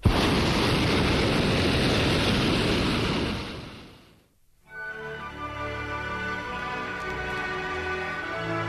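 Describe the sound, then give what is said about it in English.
A hot air balloon's burner blasts in flight: a loud, broad, steady roar lasting about four seconds, then cutting off abruptly into near silence before a quieter background returns. “Conversation aloft is punctuated by blasts from the burner”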